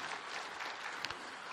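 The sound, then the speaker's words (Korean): Church audience applauding to thank volunteers, a faint, even patter of many hands clapping with a couple of sharper claps standing out near the end. “수고하신 분들께 우리 감사의 박수하시고요.”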